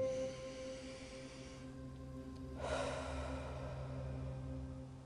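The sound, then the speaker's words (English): A slow, deep inhale during a guided mindful-eating breathing exercise, a soft breathy rush swelling midway through, heard over steady, gentle sustained music. “Let's take another deep breath, inhale together.”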